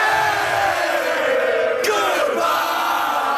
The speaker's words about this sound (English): Outside the Buffalo Arena, Habs fans cheered madly.